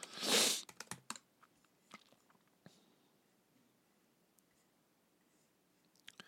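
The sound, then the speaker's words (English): Typing on a computer keyboard opens with a loud, brief rustling burst, followed by scattered, irregular key clicks that thin out into near silence before a couple of final taps. “I wish there was a way that I can type. Let me see if I type it in, if it comes in.”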